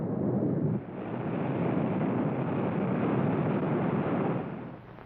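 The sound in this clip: Rocket blast-off effect from a radio drama, a broad roaring rumble that holds steady for about five seconds, dips briefly near the start, then eases off at the end.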